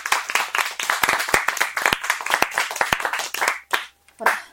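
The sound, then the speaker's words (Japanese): Clapping from a group of people in answer to a show-of-hands prompt: many crisp, quick hand claps overlapping in a lively burst that thins out near the end into a few scattered sounds. “拍手、 全員”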